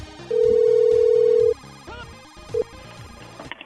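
A telephone ringback tone sounds on a call to a hotel front desk: one long, steady mid-pitched tone lasting about a second, then a brief second beep, over a busy tonal background.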